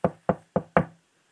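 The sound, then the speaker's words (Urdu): Four sharp knocks of a walking stick against a door, evenly spaced and loud, each one short and quickly fading, with no voices. “حضرت نے اپنی دست مبارک میں جو چھڑی تھی اس سے دروازہ کھٹکھٹایا”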